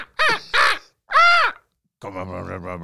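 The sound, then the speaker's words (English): Three harsh, rasping caws from a crow or raven, each lasting roughly a quarter to half second and separated by short gaps. “Just be like random bird noises scattered in throughout.”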